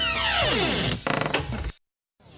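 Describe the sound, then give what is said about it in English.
A door-closing sound effect: a loud sweeping whoosh that falls steadily in pitch, then a rattling, clattering slam that cuts off abruptly into a brief silence. “Let's close the door on the Fact Check Baby.”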